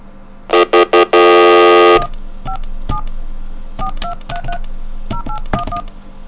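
Touch-tone dialing on a payphone: a few short, loud tone bursts and a long steady tone, then many quicker, quieter key tones pressed in irregular groups.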